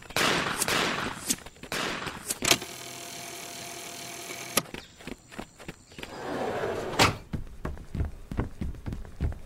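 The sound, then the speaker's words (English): Gunshots in a chaotic chase scene: a few sharp, loud cracks scattered irregularly among dense, noisy clatter, with a steadier stretch in the middle and more bursts toward the end. “Shoot him, Bob!”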